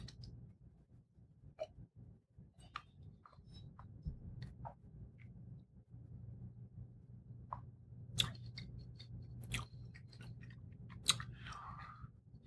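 Faint, soft chewing of a strawberry and raspberry flavoured food, with irregular small clicks and moist squishes over a low steady background hum, plus a few slightly sharper crunches near the end.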